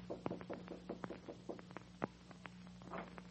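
Knocking on a door comes as a faint string of many quick, irregular raps over a steady low hum, with one stronger rap near the middle.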